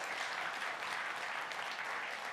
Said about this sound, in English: We're baptizing four people this service. You can clap for that.